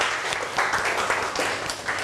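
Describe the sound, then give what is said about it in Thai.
Classmates applaud in a classroom: a dense, steady patter of many hands clapping together, fairly even in loudness and without pause for about two seconds. “ก่อนอื่นปรบมือเพื่อนก่อนเร็วๆ”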